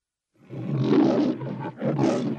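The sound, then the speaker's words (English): A deep animal roar: one long, rough, sustained bellow, then after a brief dip a second powerful roar, loud and alone with no voices. “Roar. Yep, roar.”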